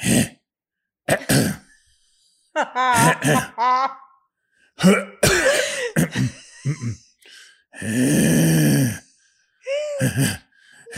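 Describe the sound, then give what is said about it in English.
A voice imitates someone wheezing and straining to hold back a cough while lying face-down during a massage. It comes as many short, breathy gasps and throaty bursts, with a longer harsh, rasping exhale near the end. “You're like wheezing trying to hold back the cough.”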